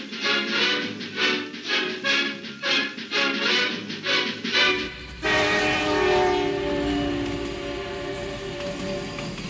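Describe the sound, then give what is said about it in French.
A train passes at night with a rhythmic, pulsing rumble of wheels. Partway through, a loud, sustained horn blast takes over and holds to the end, with no voices. “Scintillement des trains dans la nuit, poésie de lumière et d'ombre dansante, beauté de la technique.”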